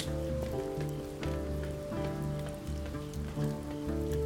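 Rain falling on a rainy night, a continuous dense patter and hiss that stays even and fairly faint throughout, with no voices.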